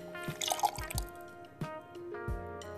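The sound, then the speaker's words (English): Appleton rum poured into a glass, heard as a few soft liquid drips and small splashy trickles with light knocks, low in level, with no talk. “it may or may not be Appleton, but we're going to call it Appleton. So here we go. Pouring that in.”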